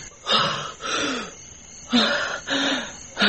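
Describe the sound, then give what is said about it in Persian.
A revived child gasps and starts breathing again: four loud, rasping breaths in a steady rhythm, each drawn in or pushed out with a hoarse, slightly wheezy edge. “اون حرکت کرد. نفس میکشه.”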